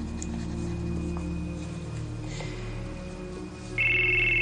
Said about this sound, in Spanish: Contesta al móvil.